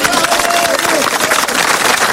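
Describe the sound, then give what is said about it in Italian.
Applause from a crowd, a dense, steady wash of clapping that holds at an even loudness through the whole short stretch, with a faint tonal sound running beneath it. “Tac! Applauso!”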